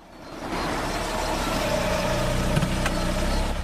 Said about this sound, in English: Sandy drives up in her car and smiles up at Dodge